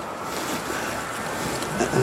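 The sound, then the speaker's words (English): Water rushing past a sailboat hull in a fresh breeze, with bubbling off the lee rail. It is a steady, even hiss and wash of moderate loudness with no voices. “the sound of it going through the water when you've got a good fresh breeze, and you're just bopping along there. And there's this bubble off the lee rail there.”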